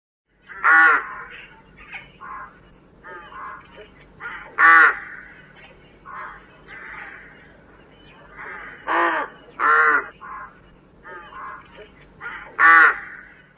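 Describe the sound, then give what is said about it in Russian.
A rook cawing, repeated harsh, rasping calls in irregular bunches, some loud and others softer, over a low steady hum. “Грач.”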